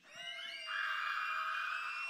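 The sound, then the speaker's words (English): Children scream together in a church, a sustained high-pitched shriek that swells after a moment and holds steadily until the end. “On the count of three, kids, I want you to scream. You're allowed to scream in church this morning.”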